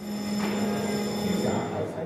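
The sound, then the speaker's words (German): An electric bell rings continuously to call members of parliament to a vote during a committee session. The ringing is loud and steady, with a buzzing tone that persists unbroken throughout. “Eine Klingel ruft die Abgeordneten zur Abstimmung.”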